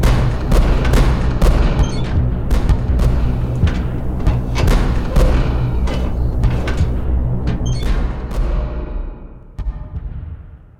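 Many sharp gunshots crack in a radio war drama as soldiers keep firing on people fleeing along a road while Republican planes approach. The shots come in irregular bursts over a low rumble and thin out near the end.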